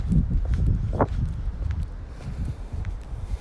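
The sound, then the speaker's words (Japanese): Footsteps on a short walk, a steady series of soft, low thuds with some scuffing, fairly loud and uneven in rhythm. “ちょっと今はそうだなこれ何て言うんだろうちょっとした散歩ですかね”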